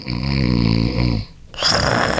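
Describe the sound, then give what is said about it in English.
A man snoring: one long, loud, rumbling snore, a brief silent pause, then a second, breathier and rougher snoring breath. “That's how he sounds. That's his snoring.”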